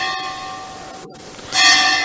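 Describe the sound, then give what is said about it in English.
A bell rings in steady sustained tones that hold throughout, then swell into a brighter, louder strike near the end. “1 second, this bell.”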